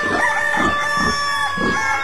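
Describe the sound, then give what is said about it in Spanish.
A rooster crows at dawn, giving a few loud, repeated calls with faint clucking, over a steady tonal background. “Un gallo madrugador al sol viene despertando.”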